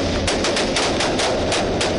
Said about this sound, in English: So when we first knocked on the door of the house, the shooting started. A fierce gun battle erupted.